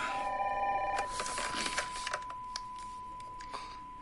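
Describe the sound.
A telephone rings with an incoming call, a faint electronic ring in the first second, followed by a few soft clicks and a thin steady tone.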